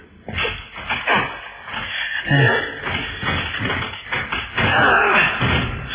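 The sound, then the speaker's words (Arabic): A box is opened inside a shipping container in a radio drama scene, with rummaging thumps, scrapes and shuffling knocks that come in uneven bursts. “طب يلا انا بقى هفتح اي صندوق من دول.”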